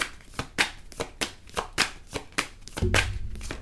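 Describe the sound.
Tarot cards being drawn and shuffled, producing a run of crisp, papery riffles and taps in a fairly even rhythm. The sequence ends in a longer, fuller flutter of cards.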